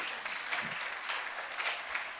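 Applause from a church audience: a dense, even patter of many hands clapping that holds steady throughout, with small swells but no pauses.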